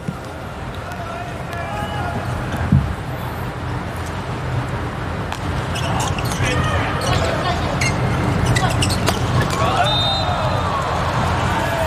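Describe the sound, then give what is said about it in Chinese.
A volleyball serve during a match, with one sharp thump of the ball being struck, over a steady crowd murmur while a commentator talks throughout. “彭世坤发球”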